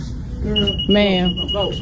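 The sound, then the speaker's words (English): A shop security tag alarm beeps: a steady, piercing high tone sounds without a break beneath loud overlapping talk from people in a store. “The beep, because things haven't had the tags taken off. Yeah. It's going off”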